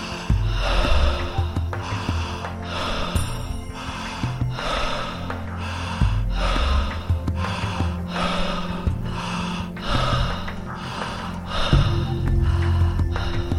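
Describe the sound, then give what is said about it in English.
Connected deep breathing, inhales and exhales running into each other without pause, forming a steady, loud cycle of airy breaths over a low sustained drone. “Breathe in. And now continue to breathe in a connected manner. No pause between the inhale or exhale.”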